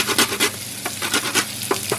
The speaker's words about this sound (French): rajoute la muscade, les clous de girofle et déglace le tout pour récupérer les sucres. Voilà. Donc là, on va aller récupérer ces sucres, faire une petite liaison avec l'oignon, l'ail, la muscade et les deux clous de girofle.